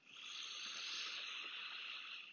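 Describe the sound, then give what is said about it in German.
A steady, airy hiss of breath drawn in through the left nostril during an alternate-nostril breathing exercise, one smooth continuous inhale held at an even level throughout. “Links einatmen”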